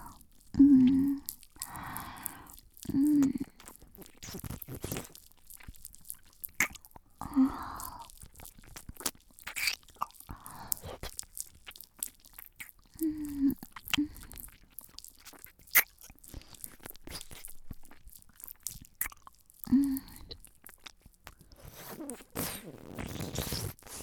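Close wet mouth sounds with biting and chewing, soft crunchy and squishy bursts scattered irregularly across quiet stretches, faint and intimate.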